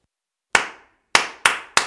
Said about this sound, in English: All you need to do is clap back the rhythm of the words that I say. So if I say, space is the place, you'll clap.